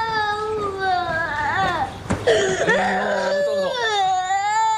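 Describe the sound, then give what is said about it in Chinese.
A small child cries after being bullied and hurt in the face, sobbing and wailing loudly and continuously with rising and falling whimpering pitch and brief catches of breath. “不哭不哭不哭不哭！哎呦，脸上疼不疼啊？啊？哎呦，不哭啊，擦擦眼泪啊，擦眼泪。”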